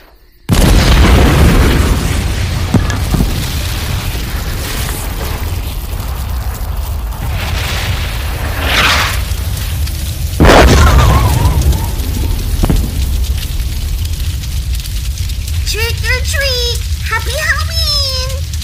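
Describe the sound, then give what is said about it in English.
Vault 69 artillery shell fireworks explode in a sustained loud roar of crackling bursts with a couple of heavier booms midway, and high squealing sounds near the end. “Stand back. Here comes the Vault 69 artillery shells.”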